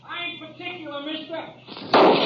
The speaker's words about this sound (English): Now, who in the thunder are you shooting at?